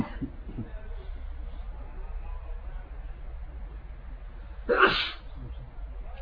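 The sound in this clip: A single sharp sneeze during an Arabic grammar lesson, a short, loud burst rising out of a quiet background hum.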